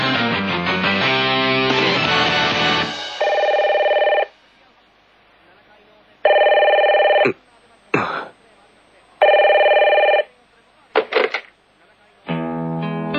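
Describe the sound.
A telephone rings for a morning wake-up call in three steady, bright electronic bursts separated by pauses. Music plays before and after the rings, and a few short clattering knocks fall between them.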